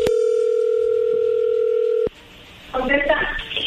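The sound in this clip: A telephone dial tone as a call is placed: a steady, loud tone holds for about two seconds and cuts off abruptly, followed by a short quiet gap and then a voice answering over the phone line.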